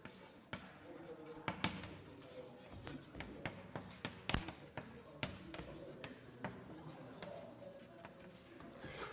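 Handwriting a mathematical formula, an inequality, during a maths lecture: faint, irregular scratching strokes with a few sharper taps, quiet throughout.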